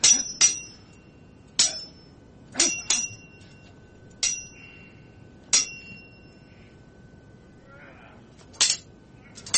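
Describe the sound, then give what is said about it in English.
Sharp metallic clinks and rings of a sword being ratcheted, several bright struck hits at uneven intervals, some in quick pairs, each leaving a short ringing tail over a quiet background. “Sword ratcheting this time.”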